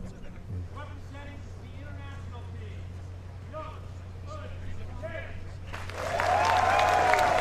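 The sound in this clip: A golf crowd at the first tee greets Y.E. Yang's introduction: a low hum and murmuring voices hold steady at first, then a louder burst of applause and crowd noise swells near the end.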